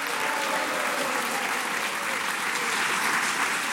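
Studio audience applause welcoming game show contestants: dense, steady clapping that stays loud and even from start to finish.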